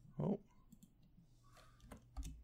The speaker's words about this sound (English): I guess he will hear this. He will hear us typing this email